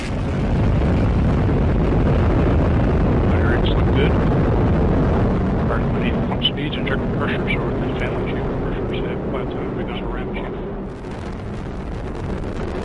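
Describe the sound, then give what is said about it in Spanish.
An Atlas V rocket lifts off from Cape Canaveral carrying a spacecraft, a loud, continuous roar of deep rumble and crackle that holds steady and eases slightly toward the end. “3, 2, 1. And liftoff of Osiris Rex.”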